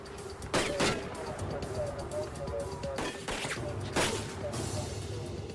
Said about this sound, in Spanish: En ese momento saca una pistola calibre 45 y continúa disparando.